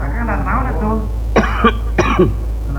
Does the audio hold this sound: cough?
yes